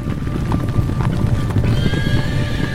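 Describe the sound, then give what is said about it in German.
Hundreds of horses gallop as some 500 riders on wild horses charge into a castle courtyard, a dense, continuous drumming of hooves with a whinny rising over it near the end. “das war nicht nur ihr Herz, das war der Donner von Hunderten von Pferdehufen.”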